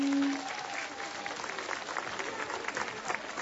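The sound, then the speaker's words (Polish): Warm applause from a gathering welcoming guests from Ukraine: continuous, dense clapping that holds a fairly even level throughout, with slight swells toward the end. “Gorącymi oklaskami przywitajmy naszych przyjaciół z Ukrainy.”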